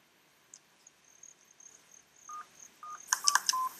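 Telephone keypad DTMF tones sound as a number and security code are keyed in, a series of short electronic beeps that grow louder and come in a quick cluster toward the end.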